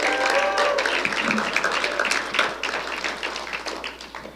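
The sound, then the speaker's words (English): A church audience claps for its worship team and serve crew at an Easter service, a dense patter of hand claps that gradually thins toward the end. “can you just make some noise for our incredible worship team and our serve crew at large?”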